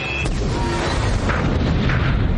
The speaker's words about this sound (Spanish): El último vagón explota.